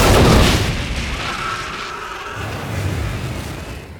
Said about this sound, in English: The bullets ripped through the metal jerry can. One of the tracer rounds set the gasoline on fire, and the container exploded.